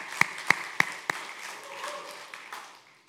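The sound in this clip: Applause from an audience welcoming a guest at a morning gathering. It opens with four sharp, evenly spaced claps, then thins into faint, scattered clapping that fades away.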